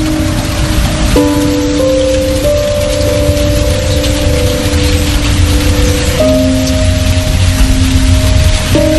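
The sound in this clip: Steady, loud rain falls over an empty house as a constant dense hiss throughout, joined by sustained background tones that shift in pitch a few times.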